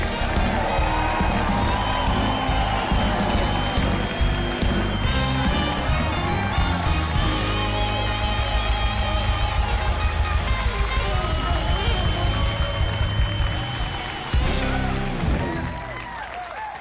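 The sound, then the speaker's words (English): Studio audience cheering and applauding enthusiastically at a live television show, a dense, continuous wash of clapping and whoops that stays loud throughout and eases off slightly at the very end. “I like it when the audience shows up with a lot of excitement and enthusiasm, and they have tonight.”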